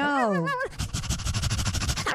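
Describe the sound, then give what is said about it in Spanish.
A person vocally imitating a dog, starting with a brief whining tone and then a long run of rapid, rhythmic panting-like huffs. “Uy, qué buen perro hace.”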